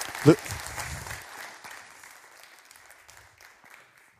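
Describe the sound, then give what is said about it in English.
Audience applause in a church welcoming a children's pastor. A single sharp thump comes near the start, then the clapping slowly fades and becomes quiet. “Would you please put your hands together and welcome Pastor Lucas?”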